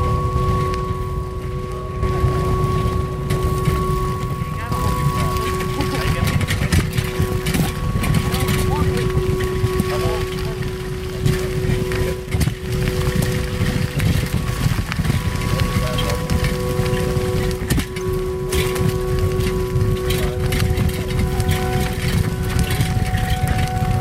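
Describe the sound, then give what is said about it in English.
Bicycles ride through a tunnel on a long-distance trail: a loud, steady wind-like rumble runs the whole way with a faint tonal hum, and voices break through now and then. “I took this recording of us going through the tunnel on our bikes.”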